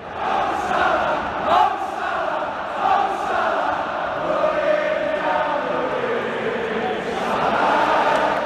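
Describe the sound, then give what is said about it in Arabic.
Liverpool fans in the stands chanting "The Egyptian King" for Mohamed Salah, a large crowd singing together in a steady, sustained chant with a few louder swells. “محمد صلاح لدرجه انه جمهور الليفر سواله اكثر من اهزوجه واكثر من اغنيه من ابرزهم كانت اغنيه ذا ايجيبشن كينج”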